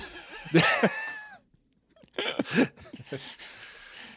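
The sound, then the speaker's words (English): Throat clearing and coughing: a rough voiced burst, a short silence, then several harsh, raspy bursts, with no words spoken. “Something in my throat.”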